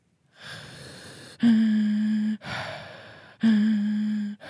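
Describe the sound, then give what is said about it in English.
A singer's voice sounds pitched breath, alternating breathy, airy stretches with two loud, steady, low-pitched sung tones, with no words. “And when you do it on the in breath, just pitch on the in breath, you get like”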